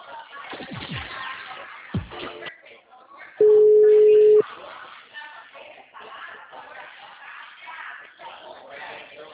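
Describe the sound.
A telephone tone sounds while a call is being transferred: one steady, unbroken beep lasting about a second. Narrow, phone-quality talk comes before and after it.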